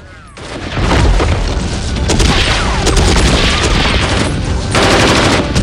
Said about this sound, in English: A couple of guards flee from a gun emplacement as the special forces advance. One of them is gunned down.